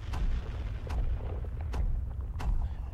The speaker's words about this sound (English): It's more like this when I say demolition. There's a video that should come up here any second now.